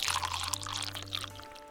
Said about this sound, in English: come back out and pour some pints